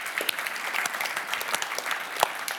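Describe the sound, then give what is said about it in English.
Audience applause welcoming a speaker to the stage, a steady, dense patter of many hands clapping at an even level for a few seconds. “Let's put our hands together.”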